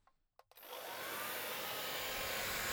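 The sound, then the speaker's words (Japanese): Hair dryer drying someone's hair after a bath: a couple of soft clicks, then a steady, broad whooshing roar switches on and holds at an even level. “はい、髪の毛を乾かしてあげるね。”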